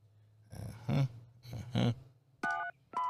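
Telephone keypad dialing tones: two short, dual-pitched beeps near the end, the second cut off, preceded by two brief muffled bursts of sound.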